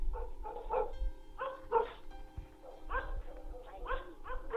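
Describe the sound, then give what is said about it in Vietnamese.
A dog barks furiously at night, a few sharp barks mixed with yelps and whimpers in uneven bursts, fairly faint throughout. “tiếng chó sủa thì càng lúc càng lồng lên dữ dội, như là con chó nó đang cắn ma.”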